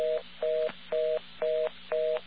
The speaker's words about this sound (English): But it's a fast version of a busy signal.